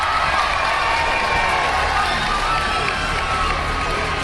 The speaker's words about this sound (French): Avant même d'aborder le virage de Saint-Estève, marquant le début de l'ascension, on entend les cornes de brume et les applaudissements.